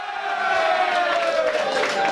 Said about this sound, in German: Jubel in der Garderobe der Zürcher. Sie feierten den Erfolg mit einem tschechischen Bier